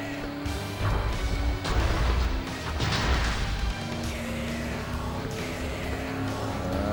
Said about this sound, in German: Ich wollte jetzt gerade mitten durch ein Haus brettern.